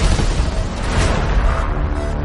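Gunfire opens up after a shouted order to fire: a loud, dense, continuous roar of shots and booming blasts that runs without a break, with no distinct separate reports.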